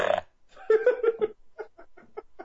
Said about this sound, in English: I'm sorry, I got Duracell in him. They're going to go all night. The fart machine is brought to you by Duracell.